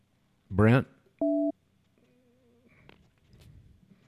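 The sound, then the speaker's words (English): Telephone tones as a number is dialled to call a caller back: a brief voice, then one short, steady two-tone beep, a fainter tone after it, and low murmuring toward the end. “I'm trying to call this caller back who'd never called in before. From a written number I had to write on a small screen”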